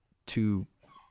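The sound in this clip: A pet dog gives one short, faint bark with a tonal, slightly whining edge.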